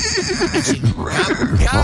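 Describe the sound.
A horse whinny, a loud quavering call with a fluttering, wavering pitch that fills the short clip.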